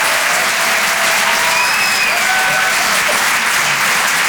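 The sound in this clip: Audience applause after a stand-up comedy set: a loud, dense, steady clapping from a crowd that holds at full strength throughout without fading.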